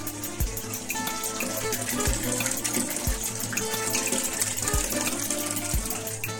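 Water flows steadily in a rural countryside setting, a continuous rushing hiss broken by five soft, dull low thumps at uneven intervals.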